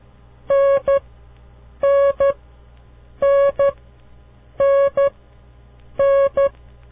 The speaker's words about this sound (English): That was the letter N.